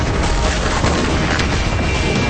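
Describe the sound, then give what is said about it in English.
A loud, dense roar from an explosion in water, a steady wall of rumbling noise that holds at full strength throughout. “And that is an explosion in water.”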